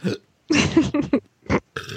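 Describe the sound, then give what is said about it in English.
Burping into a microphone: several short throaty bursts in quick succession, partly stifled, with no talk. “I was, you know, burping and was trying to conceal it.”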